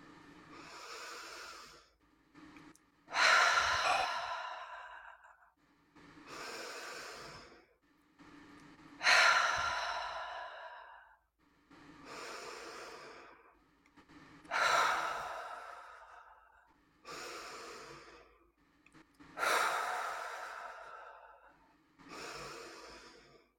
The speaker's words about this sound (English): we're going to take 5 really slow breaths in through the nose and letting it go out through the mouth